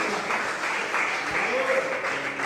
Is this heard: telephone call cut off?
no